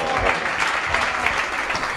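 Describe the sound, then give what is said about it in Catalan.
Applause follows a speech at a gathering with the local hospitality guild in Sitges: a dense, steady wash of many hands clapping that holds at an even loudness from start to finish. “Joan Rubio, amb un discurs que va ser especialment aplaudit”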